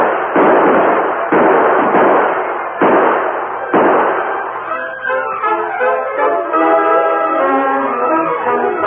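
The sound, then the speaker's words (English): Gunfire in a Western radio drama shootout: four heavy, muffled bursts of rapid shots in a row. Orchestral music swells in afterward. “Open fire, men. Drive them back.”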